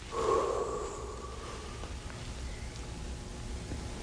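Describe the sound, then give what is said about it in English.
A voice imitating life being breathed into a lifeless figure, one long, airy blow of breath with a faint tonal edge at the start, trailing off into soft hiss. “And the Father said, I will breathe into him, and then he shall rise. And so the Father went,”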